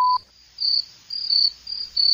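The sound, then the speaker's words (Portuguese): Crickets chirp around an isolated house in the woods near a lake, giving high, shrill trills in a few short bursts with brief gaps of quiet between them. “Os grilos cantam ao redor da casa das pessoas confinadas.”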